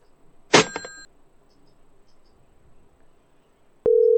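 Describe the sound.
A telephone call-rejected tone: a short bright chime rings out, then a steady low electronic beep starts near the end and holds. A faint hum lies underneath.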